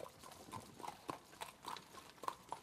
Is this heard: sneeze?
no